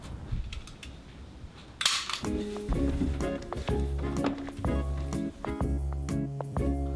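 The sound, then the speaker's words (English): A staple gun fires with one loud, sharp snap, preceded by a few faint clicks and followed by steady tonal sounds. “What is that? It's a staple gun.”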